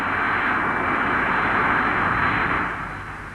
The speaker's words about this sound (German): Zu überhören war sie nicht. Und als sie heranrollte, war sie auch nicht mehr zu übersehen. Und schließlich sah sie auch nicht mehr aus wie alle anderen Flugzeuge.